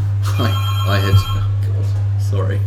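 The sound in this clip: Telephone ringing for a caller on a call-in line, sounding under people talking over a steady low hum.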